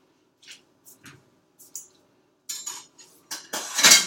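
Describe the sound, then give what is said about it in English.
A knife cuts a piece of butter with several short scraping and clinking strokes against a dish. They start faint and sparse, then grow louder and closer together toward the end. “take out a knife and we're going to cut off just like normal amount of butter.”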